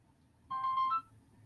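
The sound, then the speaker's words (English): A mobile phone ringtone goes off: one short, bright, tonal melodic burst of about half a second, sounding clearly over a low, quiet background hum. “And that was my phone going off. I don't know who was calling me.”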